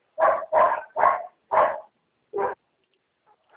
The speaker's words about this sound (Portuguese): tem uns cachorros latindo aqui, tá uma dificuldade para me entender